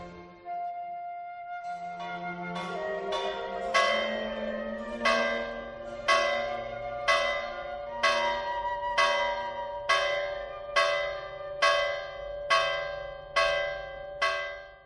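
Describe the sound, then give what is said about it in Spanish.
Church bells ring in rhythm in Tierra de Alba, Spain. After a few lower tolls, a bright bell strikes many times at a steady pace of about one per second, each strike leaving a shimmering, overtone-rich ring, with no voices. “Las campanas tocan al compás de Tierra de Alba”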